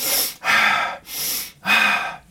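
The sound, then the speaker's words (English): Rapid, deep breathing, deliberately hyperventilating through the mouth or nose: four loud, rushing breaths in quick succession, with no other sound. “Now, the repetitive breathing more quickly and deeply, this kind of thing,”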